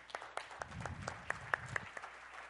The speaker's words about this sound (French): On peut applaudir.